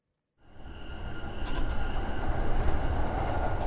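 A train pulling into Akabane Station in Japan: after a moment of silence, a broad, steady low rumble fades in and swells, with a few brief high hissing flickers on top.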